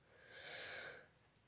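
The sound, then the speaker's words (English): One faint, deep inhalation during a guided breathing and relaxation exercise, a soft airy rush that swells and then fades over about a second. “So we're going to take a little time with this, connecting with our breath and our body. Taking a deep breath in,”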